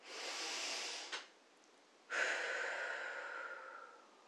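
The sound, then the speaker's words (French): A slow, deep breath during a guided relaxation exercise: a long, soft airy inhale, a brief pause, then a fuller, stronger exhale that gradually trails off, heard alone without talk. “vous pouvez prendre 2 ou 3 respirations amples et profondes en inspirant et en soufflant complètement, comme ceci.”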